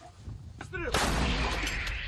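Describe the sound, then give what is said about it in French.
An old Soviet howitzer fires at Russian positions on the Ukrainian front: one heavy, booming blast lands midway and rolls into a sustained low rumble, with a brief voice just before it. “cette unité vise les positions russes avec un vieil obusier soviétique.”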